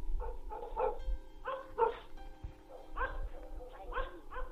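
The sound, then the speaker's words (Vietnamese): A dog barks furiously at night, a rapid series of agitated, harmonic barks and yelps, some in quick pairs, continuing throughout at moderate loudness. “tiếng chó sủa thì càng lúc càng lồng lên dữ dội, như là con chó nó đang cắn ma”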